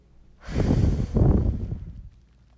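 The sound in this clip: A long, breathy exhale is taken during a guided breathing exercise. It is soft and airy, swelling in two pulses over about a second and a half, with no talk.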